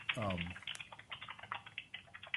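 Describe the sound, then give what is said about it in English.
Someone typing on a computer keyboard: many quick, faint clicks in an uneven rhythm, following a brief voice at the start. “Someone's typing.”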